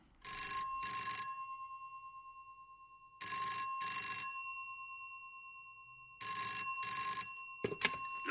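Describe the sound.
A telephone rings in three bursts, each a bright double ring of a bell tone, separated by quiet gaps of about two seconds, with a short click at the very end.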